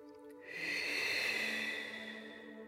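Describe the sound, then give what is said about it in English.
One slow, deep breath, soft and drawn out, swelling gently and then fading away over about two seconds. “I think I'm just going to sit here in the moonlight and take a few deep breaths. You can join me if you like. Breathing in and out.”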